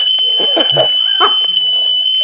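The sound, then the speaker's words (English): A smoke alarm sounds a steady, shrill high-pitched tone that runs through the whole moment without a break, while a person talks over it. “Oh, my smoke alarm's gone off.”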